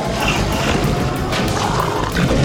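Werewolves roar and growl in an audio drama as they attack zombies, a loud, continuous layered snarling that stays rough and intense throughout.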